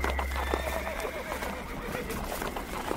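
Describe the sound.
Horses pulling a carriage: hooves clip-clop steadily while a horse lets out a whinny. The sound stays loud and continuous throughout.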